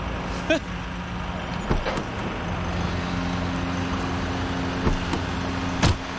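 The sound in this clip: A car drives off, making a steady low engine and road rumble that stays even throughout, with a few faint clicks and squeaks.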